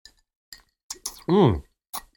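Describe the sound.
Ice cubes clinking in a drink glass: a few sharp, light clicks spaced apart, with a short voice sound in the middle.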